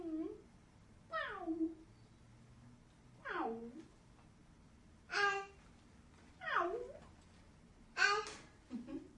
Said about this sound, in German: Das ist Miau. Ja, das kann man sogar erkennen.